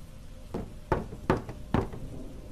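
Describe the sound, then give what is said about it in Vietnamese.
Knocking on a wooden door: three sharp, evenly spaced knocks, with a fainter tap just before them. Each is a solid, hollow thud over quiet background noise, and no one speaks. “Tiếng gõ ba tiếng rõ mồn một, như là đang có ai gõ gõ vào cánh cửa bằng gỗ.”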